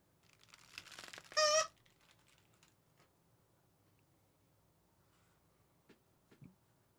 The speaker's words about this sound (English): let me use my strong hand and just rip it apart. This carrot deserves no respect.